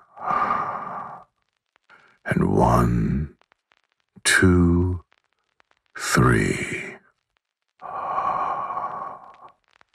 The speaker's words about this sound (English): And one, two, three. And exhale.